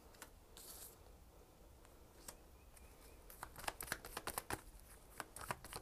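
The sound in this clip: Faint shuffling of playing cards: a few scattered crisp flicks give way to a busier riffle of many quick snaps toward the end, with no talking.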